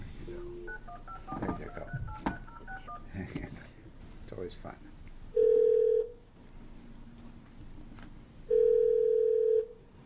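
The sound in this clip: Telephone dialing on an office line: a cluster of short keypad tones, then two long, steady tones a few seconds apart over a low background hum.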